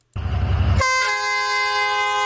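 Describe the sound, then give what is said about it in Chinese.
Whistle of a vintage metre-gauge tourist train with yellow wooden carriages, leaving the station at Jianshui ancient town: a brief rush of broad, noisy hiss, then a loud, steady, harmonic-rich whistle tone sustained to the end. “随着汽笛声响，复古的黄色木质车厢满载游客缓缓驶出站台”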